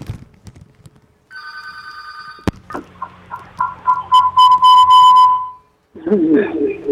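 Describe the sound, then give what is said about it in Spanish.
An electronic telephone ring for an incoming call sounds as a steady high warbling tone, then a sharp click, a series of tonal beeps and whistles, and finally a burst of voice. “Vamos a ver, tenemos una llamada.”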